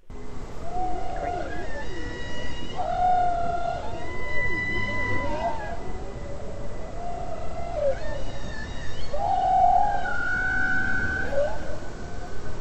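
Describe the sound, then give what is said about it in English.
Underwater whale song captured on a hydrophone: many tonal moans and sweeping, wavering calls overlap over a steady wash of background noise, continuing without a break. “Let's hear what these whales sound like.”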